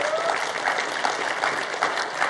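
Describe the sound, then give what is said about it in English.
A church audience applauding its first-time visitors, a dense, even round of many hands clapping that holds steady throughout. “Could we give them a round of applause, church?”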